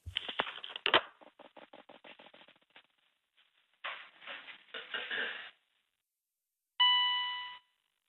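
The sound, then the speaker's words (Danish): A bright electronic beep like a submarine sonar ping rings out near the end, a clear tone with a fading tail. Before it come a run of quick clicks and a few rattling bursts. “Den der bip, det er ligesom sådan en ubådsping. Hør det?”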